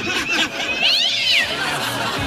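Kittens meowing: a high, drawn-out mew that rises and then falls, among other shorter, fainter cries.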